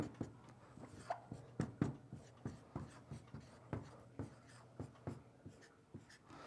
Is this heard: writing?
yes